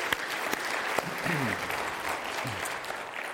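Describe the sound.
Audience applause for the kids after a Christmas Eve performance: steady, sustained clapping from a crowd throughout, with brief voices rising over it.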